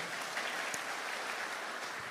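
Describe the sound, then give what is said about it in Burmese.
A church audience claps their hands during a worship service, a faint, even, continuous patter of many hands with no voices standing out. “လက်ခုပ်တီးပြီးတော့တီးပြရအောင်အာမင်”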